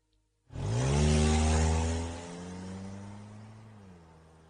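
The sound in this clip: A car engine starts abruptly after a short silence, then the vehicle drives off out of a wooded area, its humming engine tone sliding lower in pitch as the sound steadily fades.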